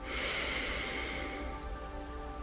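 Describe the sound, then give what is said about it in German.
A deep inhale through the nose during a guided breathing exercise, heard as a soft, steady, airy hiss that runs for about two seconds and eases off slightly toward the end. “Atme tief durch deine Nase ein”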